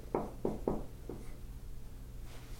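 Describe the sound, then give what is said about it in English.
A Bible verse being written out by hand: four short, scratchy writing strokes in quick succession, then a faint, quiet stretch. “I'm going to write the verse that we're doing in this here, okay? So, if it takes me a while to write.”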